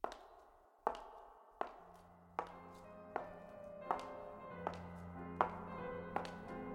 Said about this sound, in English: Then I heard shoes. Heels, to be exact.